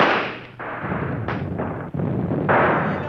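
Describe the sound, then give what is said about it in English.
Pistol fire as the signal for a dawn attack on Hessian troops in freezing weather: several loud, sharp blasts, each trailing into a long, noisy rumbling roar. “It is time for the attack signal, Major. Fire your pistol.”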